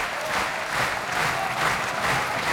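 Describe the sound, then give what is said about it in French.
Concert audience applause for an Argentine pianist at the La Roque d'Anthéron piano festival, a steady, fairly soft wash of clapping with a slight swell and ebb, and no voices. “Et vous entendez le public de la Roque d'Anterron conquis par le pianiste argentin”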